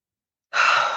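A single deep breath during a guided breathing exercise: after silence, a soft, airy rush starts abruptly and holds steady for about half a second.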